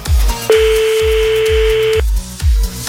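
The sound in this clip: A call is placed and a single sustained, mid-pitched telephone tone lasts about a second and a half. It sits over a loud, steady, pulsing music beat that continues throughout.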